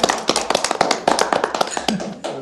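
Hand clapping from a small audience, with many sharp, irregular claps that overlap in a brisk, uneven patter and stay fairly even in loudness throughout.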